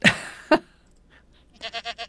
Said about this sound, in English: Isn't that? I think that's a sheep.